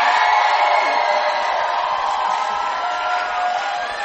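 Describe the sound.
An audience cheers to welcome a music group that once sang in church: a dense, loud wash of crowd noise and whoops that holds steady throughout.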